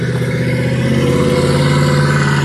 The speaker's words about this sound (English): as the car goes by